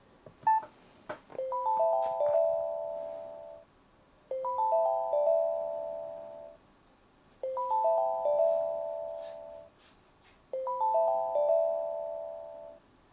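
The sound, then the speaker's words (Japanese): The access signal tone at the start of the FM Shimabara internet radio stream: a short multi-tone electronic chime motif repeats four times, each lasting about two seconds, with brief quiet gaps between. “最初のまあアクセス音というか、信号音ですね、それもちょっと FM 映画より長かった。”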